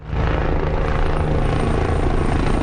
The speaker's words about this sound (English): a helicopter waterbombs flames in the central town of El Tiemblo.